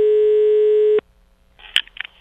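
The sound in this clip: A telephone call tone sounds as one loud, steady buzzing tone lasting about a second, then cuts off abruptly. A few faint clicks and rustles follow.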